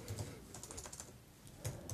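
Faint typing on a computer keyboard, a quick scatter of soft, irregular clicks over a low background hiss, with no talk.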